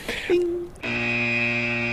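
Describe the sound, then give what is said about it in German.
Spoiler alert alarm sound effect: a short tone, then a loud, sustained, buzzy electronic tone rich in harmonics that holds steady for over a second. “Und bevor wir das jetzt weiter erläutern, wird jetzt hier der Spoiler-Alarm gesetzt.”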